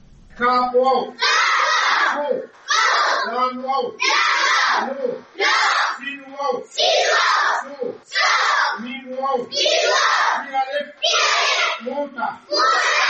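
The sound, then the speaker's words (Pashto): Schoolchildren at a government primary school in Mohmand raise their voices together in loud, rhythmic bursts, like group chanting, with short pauses between the phrases. “د زده کوونکو ماشومانو په غږونو”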